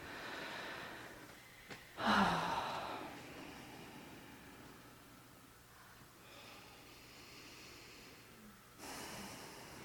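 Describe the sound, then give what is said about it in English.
Soft, diffuse breathing from a group of meditation retreat participants taking deep breaths together, faint overall, with airy swells rising a few times and no talk over it. “That's so settling to hear the collective breath. It's like, oh yeah, we're breathing each other's air.”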